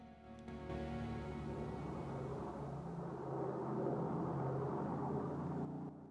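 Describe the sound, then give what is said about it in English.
Small aircraft flying overhead and swooping low over a convoy: a steady droning propeller roar that holds for several seconds, swells slightly midway, then cuts off. “A small aircraft progresses across a clear blue sky. Suddenly, it swoops down over the convoy.”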